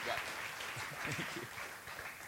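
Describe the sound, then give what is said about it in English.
Audience applause welcomes a speaker to the pulpit at a church service, a dense, steady patter of clapping that holds at an even level for the whole stretch. “So would you put your hands together and welcome up Paul Schlieker.”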